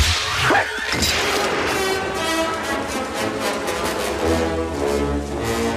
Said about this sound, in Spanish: El latigazo tiró el revólver al agua.